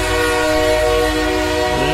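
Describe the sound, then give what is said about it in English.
A train locomotive's horn blasts as the train pulls into a city station, a loud, steady multi-tone chord held for the full two seconds over a low rumble of rolling rail noise. “let's bring that weekend locomotive in.”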